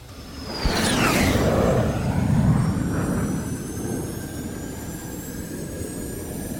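A rocket liftoff sound effect after a countdown: a sudden roaring rush with a sharply descending whistle, swelling quickly to a loud sustained roar that then slowly fades away.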